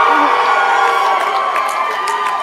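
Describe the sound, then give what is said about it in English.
Audience at a recovery meeting cheering and whooping, a dense, loud crowd roar with high shouts layered through it, sustained evenly from start to end. “We just love to cheer here.”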